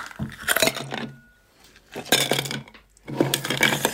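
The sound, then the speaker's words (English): Ice cubes clink and rattle into a glass of whiskey and champagne milk punch in three bright bursts separated by short pauses. “30 mils of the champagne milk punch, which just brings out the beautiful textures of the whiskey. Add in our ice.”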